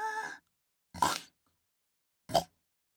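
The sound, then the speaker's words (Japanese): Pig-like nose snorts made by a person imitating a pig: a short voiced sound, then two sharp, breathy snorts, each brief and loud with silence between. “あ、ごめん、興奮したから豚みたいに鼻鳴らしちゃった。”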